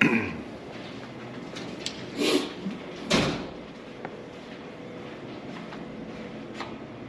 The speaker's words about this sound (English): try to get in through this door here. Yeah, they lock it for safety.